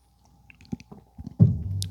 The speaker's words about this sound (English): it's the morning, so I'm going to take a little sip of coffee here